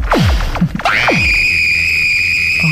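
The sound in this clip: A town crier's loud, shrill shout: several quick falling swoops, then one long, piercing held note that stays steady to the end.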